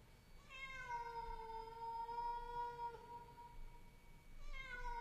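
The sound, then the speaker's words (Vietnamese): A cat meows at night on a ground floor, giving one long, drawn-out, plaintive cry followed by a second call starting just before the end, both fairly faint over a soft, hissing background. “tôi nghe có tiếng mèo kêu ở dưới tầng 1. Tiếng mèo kêu trong đêm, nghe não lòng kinh khủng.”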